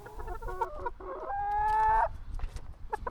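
Chickens cluck at a backyard henhouse in a family-house garden in Telč: short clucks, then one long rooster crow that swells and breaks off, followed by a few more clucks.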